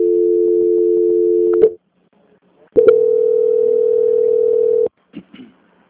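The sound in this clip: Telephone tones sound while a call is being transferred: two steady mid-pitched tones, the first about one and a half seconds and the second about two seconds long, with a short silence between them, then a few faint clicks.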